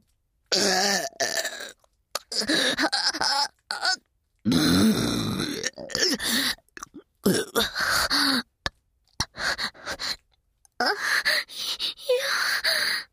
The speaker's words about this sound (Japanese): やだやだやだやだ、やっぱりゲップなんてした。